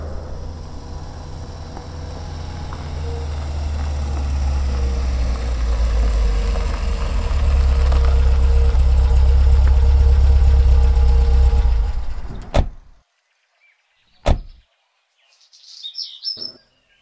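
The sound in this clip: A car engine idles with a steady low rumble as the car pulls up beside a roadside tea stall at a forest edge. Birds chirp over it. The engine cuts off after about twelve seconds, followed by a few brief sharp sounds.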